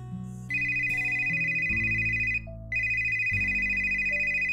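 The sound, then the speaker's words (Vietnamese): A telephone rings with a steady electronic ringtone whose bright, repeating tone pattern plays loudly on its own, stops briefly, then starts again. “Chuông điện thoại reo”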